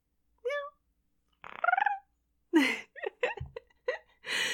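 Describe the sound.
A person imitates a cat with two drawn-out, wavering meows, then a quick string of shorter meow-like and breathy vocal bursts.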